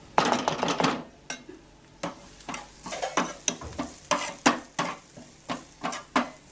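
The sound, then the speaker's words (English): Spices being stirred into vegetables in a kitchen, with a dense rush of scraping at first, then many short, regular scrapes and knocks of a utensil against a pan. “stirring in the spices for the vegetables and mixing the dough for the rotis or Indian bread”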